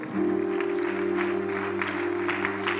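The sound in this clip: An audience claps their hands in praise during a church service, with steady, dense clapping over sustained musical tones that carry through the whole passage.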